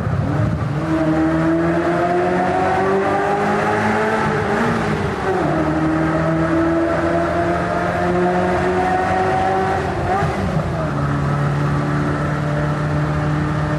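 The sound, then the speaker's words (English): A Ferrari 348 TS engine revs loudly with its roof off as it drives through a tunnel in the Fujairah hills. The pitch climbs steadily, drops sharply twice at gear changes, then holds a lower, steady drone. “Enjoying the oral delights of a Ferrari 348 TS. Here in the Fujairah Hills, we're about to head through the tunnel.”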